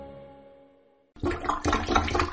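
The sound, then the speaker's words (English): A plunger works a clogged drain: a fading tonal note gives way to a few forceful gurgling surges of water and squelching suction pulses. “I've been plunging this thing for an hour. I give up. Is a clogged drain turning your happy home into a hornet's nest?”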